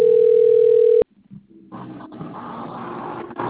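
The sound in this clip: A telephone tone on an outgoing call: one loud, steady electronic tone lasting about a second, cut off abruptly, followed by low background noise and rustling.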